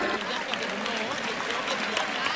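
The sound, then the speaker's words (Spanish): Crowd ovation at the Almería bullring for the trio of bullfighters, among them Morante. Dense, steady clapping with sharp individual claps stands out across the whole stretch at an even level. “Pues lo que anticipábamos está ocurriendo ahora, esa ovación del público a la terna actuante.”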